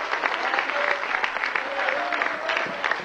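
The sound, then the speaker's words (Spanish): An audience at a Spanish-language church service claps together, a busy stream of hand claps with a voice speaking over it. “Si usted es ese remanente que guarda la palabra de Dios, a su nombre fuerte ese aplauso, si es para él,”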